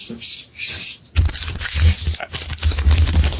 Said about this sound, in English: Unwrap it quietly? I'm trying to read. Oh, sorry. And that's some crinkly newspaper it's wrapped in.